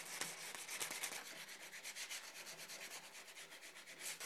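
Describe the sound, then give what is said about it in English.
Sandpaper rubs over a freshly trimmed wood edge, a dry rasping scrape repeated in many quick, steady back-and-forth strokes, alone and fairly quiet throughout. “Now we're just going to clean it up with some sandpaper.”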